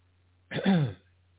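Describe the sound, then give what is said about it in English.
A person coughs after choking: one short, rough cough or throat-clearing burst, moderately loud, standing alone against a steady low hum. “Excuse me. Choke on myself.”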